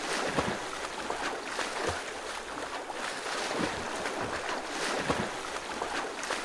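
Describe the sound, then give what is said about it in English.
Water splashing as a swimmer strokes through the pool late in a long practice session. Rhythmic whooshing surges repeat about every one and a half seconds over a continuous, fairly soft churn of water. “This is the sound of a swimmer at their fifth hour of practice that day.”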